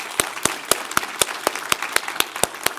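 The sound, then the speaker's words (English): A church audience clapping their hands in welcome: crisp, evenly spaced claps in a quick, steady rhythm that keeps a regular beat throughout. “If you're in this room right now, would you put your hands together and welcome everyone in that room there?”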